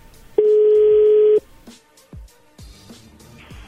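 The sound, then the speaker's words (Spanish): A telephone tone sounds while a phone is dialed again after a call is hung up: one steady, loud electronic tone lasting about a second, followed by fainter scattered clicks and noises. “Ya te colgó, Choco. Ahí está marcando otra vez.”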